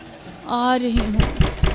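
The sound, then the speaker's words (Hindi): Knocking on an old-fashioned door, four sharp thuds in quick succession with a steady, insistent rhythm. “तब तक दरवाजे पर लगातार दस्तक होती रही”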